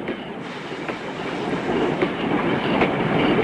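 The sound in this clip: A train rolling slowly past, with a low, continuous rumble and periodic clickety-clack wheel beats that grow gradually louder across the span.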